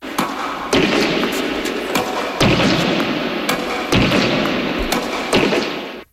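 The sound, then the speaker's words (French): Tennis racket strikes from an 88-year-old player: several crisp, sharp thuds in an uneven, loosely paired rally rhythm over a steady background hiss, with no voices. “Vous venez d'entendre les coups de raquette d'un joueur qui a aujourd'hui 88 ans, mais qui, à la grande époque, a accompli beaucoup pour son sport.”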